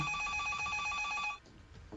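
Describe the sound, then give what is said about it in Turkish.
Telephone bell ringing with a rapid metallic trill held for about a second and a half, fairly faint, then cutting off abruptly into quiet background noise. “Telefona bakar mısınız? Bakarım tabii. Alo.”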